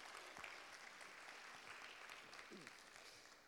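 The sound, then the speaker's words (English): An audience at a church service applauds to welcome visiting guests, including a worship leader. The clapping is steady, continuous and fairly soft, with voices mixed in. “Can we give them a big hand today and welcome them to our services?”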